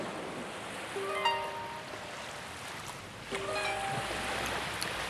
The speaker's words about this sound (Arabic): أنا قاعدة في البحر شمال تل أبيب لحالي.